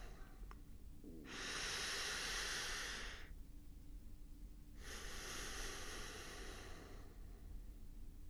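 Deep breathing during a calming exercise: two long, soft, airy breaths of about two seconds each, a hushed hiss separated by a quiet pause, with no talking.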